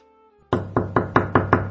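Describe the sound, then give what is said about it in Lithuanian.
Six firm, evenly spaced knocks land on a door in a steady rhythm after a brief quiet lead-in. “Kas čia beldžiasi į duris? Gal jis mano, kad atidarys?”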